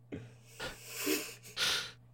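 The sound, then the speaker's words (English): A man breathing deeply while being asked for a big breath in: a few breathy, hissing swells of air, quiet and rough, with a steady low hum underneath. “Can you take a big breath in?”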